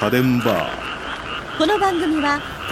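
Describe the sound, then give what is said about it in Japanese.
Frogs croak in a busy, continuous chorus of repeated pitched calls, with a short spoken phrase near the start. “今日はカエルの声を聞きながら帰りましょう。”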